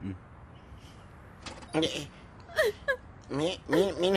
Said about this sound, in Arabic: ليش عم تبكي هاي؟ للأسف ما حدا مات وهي عم تبكي على حالة.